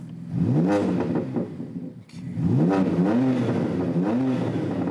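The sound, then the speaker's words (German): A BMW car engine with aftermarket software tuning and five selectable sound modes revs hard in repeated bursts. The engine note climbs and drops sharply with each blip, with a brief lull between the first run and the next rising, throaty revs. “Beliebt ist auch nachträgliches Software-Tuning, wie an diesem BMW. 5 Modi hat der jetzt drauf. Aha. Nachträglich, wohl bemerkt, das ist nicht mehr im Bereich, was BMW mal vorgesehen hat. Verändern Sie jedes Mal das Klangbild.”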